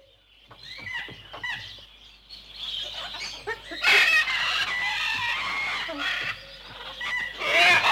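Birds calling in a busy, overlapping chorus of fowl-like clucks, squawks and crowing cries, growing louder and denser through the second half.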